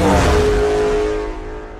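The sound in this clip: A Ferrari engine revs in a film trailer about Enzo Ferrari, a loud throaty roar with a steady humming tone that fades away within two seconds.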